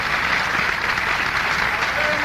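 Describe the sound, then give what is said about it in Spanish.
Audience applause at a live nightclub show in 1990, a dense and loud wash of clapping that stays steady and unbroken from start to finish. “Ese aplauso cariñoso también para quienes ponen el respaldo musical. Para todos ellos, ese aplauso de reconocimiento.”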